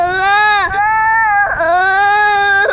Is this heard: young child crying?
yes